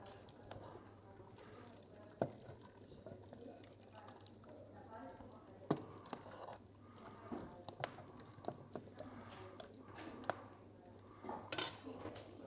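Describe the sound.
Dishes and cutlery clinking as a meal of goat, salad and cheese dip is served: faint, scattered clinks and scrapes of plates and utensils with occasional soft liquid drips, while people talk quietly.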